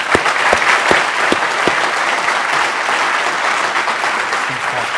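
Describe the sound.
An audience gives sustained, energetic applause to welcome a speaker. A few crisp, prominent claps stand out at the start before merging into an even, continuous roar of clapping.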